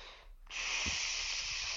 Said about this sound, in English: I want to do this sound again. You take a big breath.